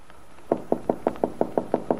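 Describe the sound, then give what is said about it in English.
A light knocking on a kitchen door: nine quick, even, soft taps in a steady rhythm after a brief quiet start. “taps lightly on the kitchen door”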